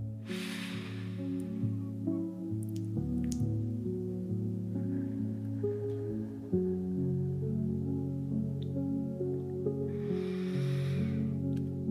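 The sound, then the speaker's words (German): Breath drawn in through the nose and blown out through the mouth as if through a straw: soft, airy rushes at the start and near the end over a steady, faint harmonic drone. “Die Nasenflügelchen empfangen den Einatmen und ich puste den Ausatmen wie durch einen Strohhalm durch den Mund aus.”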